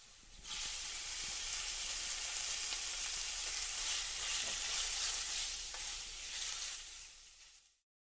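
Food frying in a pan while someone cooks: a steady, loud sizzling hiss that holds evenly for about seven seconds before cutting off abruptly, with no talk over it.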